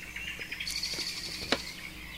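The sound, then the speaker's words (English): Birds and frogs calling together: faint, high chirps and tweets come in a loose, irregular scatter over a soft, steady background, with one brief, sharper call standing out. “we listen to the soothing sounds of birds and frogs playing together.”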